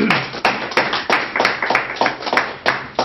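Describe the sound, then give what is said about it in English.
Lecture audience applauding to welcome a speaker, a loud run of sharp claps in a fairly even, steady rhythm. “So let's welcome Charles in the traditional way.”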